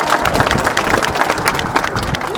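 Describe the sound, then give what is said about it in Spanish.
Neighbours applauding at a municipal ceremony inaugurating new paving in the Atipiris zone of El Alto, a dense, continuous patter of many hands clapping together. “¿Dónde están los aplausos, señores vecinos?”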